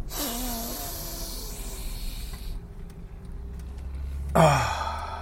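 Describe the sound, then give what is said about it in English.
A loud, deep breath drawn in during a breathing exercise, heard as a long breathy hiss that fades, then a sharper, stronger burst of breath near the end. “to ensure that you are taking the deepest breath possible. All right, here we go. Inhale, number two.”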